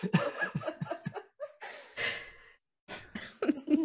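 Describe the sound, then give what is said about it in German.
Coughing and throat clearing from a few people, with short raspy bursts, a couple of noisy blowing gusts like a nose being blown, and breathy chuckles and laughter mixed in, moderately quiet. “alle nochmal abhusten, Nase schneuzen, oh Räuspern.”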